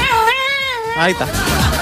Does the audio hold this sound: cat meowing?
yes